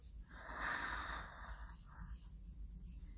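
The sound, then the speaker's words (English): A deep breath drawn in through the nose during a massage swells into a strong airy inhale, then fades into quieter, uneven breathing. “Okay, you ready? Breathe in.”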